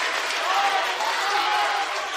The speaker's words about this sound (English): He gets a nice round of applause from the crowd